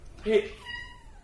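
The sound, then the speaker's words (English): A cat gives a short, strong meow, then a fainter, longer cry that slides downward in pitch as it fades. “David just got attacked by a cat”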